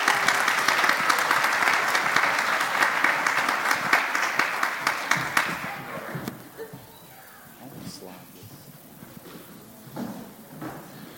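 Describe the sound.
Loud, sustained audience applause welcomes the children's choir of Broadway Baptist Church to the stage. The clapping lasts about six seconds, then dies away into quieter murmuring and voices.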